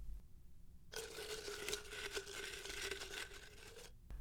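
Paper question slips rustle and crinkle as a hand reaches into a jar to draw one. The dry rustling runs steadily for about three seconds, with no talk over it.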